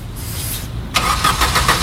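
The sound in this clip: A car engine cranking but failing to start: a short stretch of softer noise, then a quick run of loud, rhythmic grinding starter bursts that never catch, with no voices.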